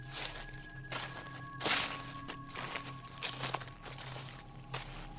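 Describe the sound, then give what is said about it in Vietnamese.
Footsteps outside: a few irregular soft thuds and scuffs, spaced roughly a second apart, over a steady low hum and a faint tonal drone. “Sau đó, tiếng bước chân ở bên ngoài vang lên.”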